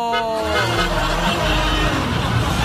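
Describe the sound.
Steady low engine rumble and road noise from inside a moving vehicle in city traffic in Osorno, with voices talking over it.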